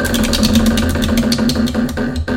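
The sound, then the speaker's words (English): Prize wheel spinning sound effect, a run of many sharp ticking clicks in quick succession over a sustained tonal hum, loud and steady throughout. “Spin the wheel of questions.”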